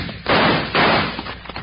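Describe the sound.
Gunshots in a western radio drama: two loud, sharp, noisy blasts in quick succession, each with a short decaying tail, followed by faint rustling and no speech.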